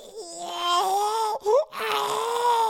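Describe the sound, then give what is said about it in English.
A baby cries in a crib with a sustained, high wail. The cry breaks off, gives a short rising yelp, then resumes as a steady cry. “No, don't do it. Don't cry.”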